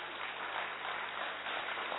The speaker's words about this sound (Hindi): और तीसरी पावर जो आप सब में सबसे ज्यादा है, उसके लिए आप अपने लिए ताली भी बजा सकते हैं, अच्छे से ताली बजा सकते हैं,